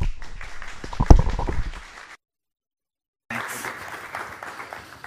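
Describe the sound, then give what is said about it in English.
A church audience applauds to welcome a pastor, with clapping peaking in a sharp burst around one second and then tapering off. A sudden silence follows, and softer crowd noise returns afterward. “So please put your hands together and join me in welcoming Pastor Danny.”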